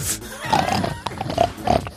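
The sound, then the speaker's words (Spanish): Pig grunts come in a short series of rough, low snorting bursts, moderately loud, with brief gaps between them and some faint background noise. “Comenzamos con ese cerdo.”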